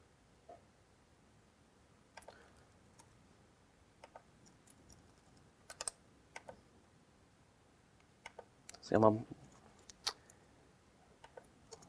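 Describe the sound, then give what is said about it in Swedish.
Faint, sharp clicks from pressing a save button on a computer, many short isolated ticks spread unevenly over a quiet background, with one slightly longer, fuller burst partway through. “Så trycker jag på knappen här nu på spara.”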